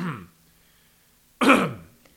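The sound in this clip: Throat clearing, heard as a harsh, raspy burst of about half a second with a short earlier rasp before it, loud and standing alone without talk.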